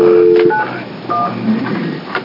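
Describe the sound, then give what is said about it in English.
Touch-tone dialing on a landline telephone: a steady tone at the start gives way to a few short, bright dual-tone key beeps separated by quiet gaps. “Yeah, let's try the landline also.”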